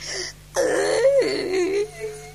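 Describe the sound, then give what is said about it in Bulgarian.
A person cries out in a brief, wavering voiced wail that sobs for about a second and a half before trailing off into quieter breathy sound. “Но му се стори, че някой плаче съвсем до него.”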